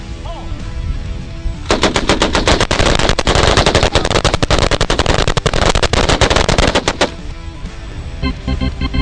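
Machine guns firing at objects rolled like cannonballs, the shots merging into several seconds of loud, rapid, continuous bursts with rumbling noise before and after.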